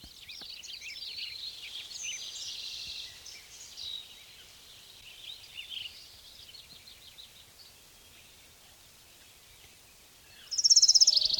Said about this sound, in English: Orange crowned warbler number two.